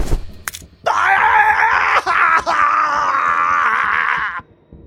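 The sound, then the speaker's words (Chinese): A man howls in pain as his wrist is snapped during a gunfight, a long, strained, voiced cry with a wavering pitch. It holds loud for several seconds, briefly catches twice midway, then cuts off. “中年男人的手腕以诡异的姿势被掰断，男人痛苦地嚎叫着”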